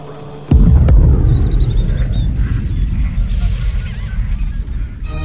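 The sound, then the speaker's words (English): A space shuttle's double sonic boom on arrival, made by the wing's leading edge and the tail breaking the sound barrier: two sharp booms close together, then a loud, sustained low rumble that slowly settles. “The big surprise is the sonic booms. The thing announces its arrival with this boom, boom sound of the leading edge of the wing and the tail breaking the sound barrier.”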